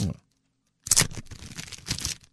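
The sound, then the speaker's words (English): Packs of 1980s trading cards being torn open: a short crinkle, a brief pause, then a longer stretch of ripping and crinkling wrapper with uneven bursts. “Nobody's opened these yet. Okay. So those cards look like 84, 83 maybe, 1983, 84. Yeah, in that era. Look like they're in pretty good shape. Let's open them up.”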